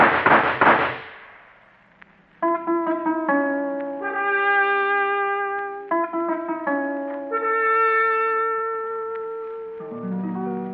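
A single pistol gunshot cracks out as a sharp, loud bang that quickly fades, followed by a few seconds of quiet before tonal music begins.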